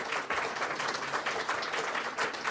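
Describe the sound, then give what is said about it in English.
A studio audience applauds an actor joining a live show at Anantara, the Marker in Dublin: dense, steady clapping from many hands at an even level throughout, with no voices. “where we are joined, put your hands together please, for actor Liam Cunningham.”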